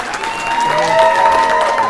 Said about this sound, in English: I want a round of applause for Jesse Bruhn.